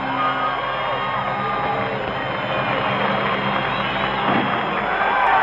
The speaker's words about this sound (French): La foule quasiment extatique.